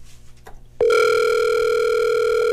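Telephone ring tone on a line as a contest winner is being called: after a short quiet start, a loud, steady electronic tone cuts in and holds unbroken to the end.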